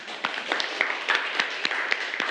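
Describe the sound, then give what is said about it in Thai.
Children clapping in a classroom, a scattered round of separate claps with uneven rhythm, fairly soft and continuing steadily for a couple of seconds. “เก่งมากปรบมือให้เพื่อนหน่อย”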